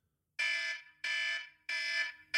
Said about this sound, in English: I have my alarm, which will sound like this.